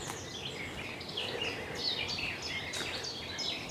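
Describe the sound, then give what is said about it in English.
Garden warbler song along a country lane, a long-winded, scratchy, rapidly warbling phrase of high chirps and trills that runs on continuously at moderate volume. “The longer-winded scratch here. It's the garden warbler. Yeah. It really does warble.”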